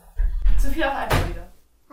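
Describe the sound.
A door in a child's room opens and closes with a solid clunk and a brief bang, heard amid people talking close by.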